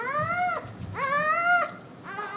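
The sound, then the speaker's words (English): A newborn puppy cries in a laboratory in Seoul, South Korea: three high, wavering whines with rising pitch, the last one cut short, heard alone without talk. “In a laboratory in Seoul in South Korea, a puppy is born.”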